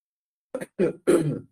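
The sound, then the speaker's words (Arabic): A person coughing and clearing their throat: three short, harsh bursts in quick succession, the first brief and the last two longer and rougher, with silence before them. “معذرة عشان عندي شوية كحة كده النهاردة”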